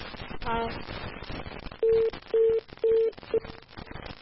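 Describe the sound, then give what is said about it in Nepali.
A phone line tone sounds after a call is cut off. A voice speaks first, then three steady, mid-pitched beeps come in an even rhythm, followed by a brief fourth blip. “ओहो phone काटियो।”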